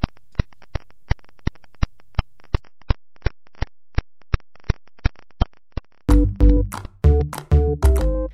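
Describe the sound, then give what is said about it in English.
Pulsar radiation pulses converted into sound form a long, even train of sharp clicks at a quick, steady beat. In the final two seconds, a loud burst of music takes over. “And the sound you're hearing is these pulses of radiation. It's what microwaves sound like.”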